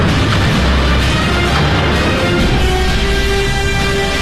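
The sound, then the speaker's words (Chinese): Cannon fire from an artillery exchange with a British warship on the Yangtze River, rendered as a sound effect: a loud, continuous, dense rumbling roar with no distinct separate blasts, steady throughout. “长江上响起了炮声”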